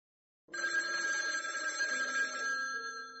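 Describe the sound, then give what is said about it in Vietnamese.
A telephone ringing at dawn: a bright, steady electronic ring starts abruptly after a moment of silence and holds at an even level to the end. “Và khi điện thoại reo”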